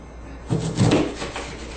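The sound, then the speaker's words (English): A knife cuts open a lime while making papaya lime soup, giving a couple of soft, dull knocks on the cutting surface in quick succession, with quiet kitchen noise in between. “So I'm going to cut open a lime.”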